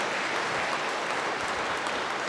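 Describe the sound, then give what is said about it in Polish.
An audience applauds, and the even wash of many hands clapping lasts about two seconds. It is fairly soft, with no voices over it. “Brawa, brawa.”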